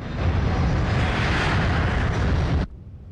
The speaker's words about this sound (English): as the plane takes off